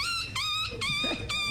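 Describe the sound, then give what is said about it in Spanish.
A human voice imitates a squeaky little dog, giving four quick, high-pitched yelps in a row, each with a short downward slide. “Mi talento oculto es el perrito chillón.”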